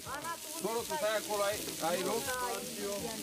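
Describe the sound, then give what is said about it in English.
Steady hiss of mici, a Romanian barbecue dish of grilled meat rolls, sizzling on a griddle, continuous under people talking. “Florin makes mici, a typical Romanian barbecue dish on the griddle.”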